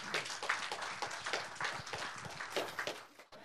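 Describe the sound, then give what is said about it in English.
Applause from an audience welcoming a speaker to the stage, a faint, steady wash of many hands clapping throughout with no voices standing out. “So as he comes up, why don't we give him a hand and welcome him up here today.”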